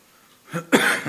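A cough from a tickle in the throat: a short rough burst followed by a louder, harsher cough that trails off within about a second.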